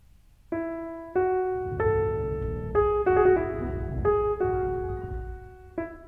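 Piano music generated by a computer algorithm working together with its human composer. A slow sequence of single notes and chords is struck, each ringing and sustaining before the next, at a steady moderate loudness with no voices.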